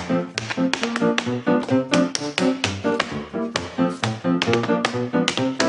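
Rhythmic tapping on a surface, many quick taps in a steady, lively beat with a ringing tonal quality beneath them.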